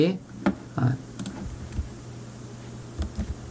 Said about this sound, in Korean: 다시 F5번 눌러서 실행시키고요.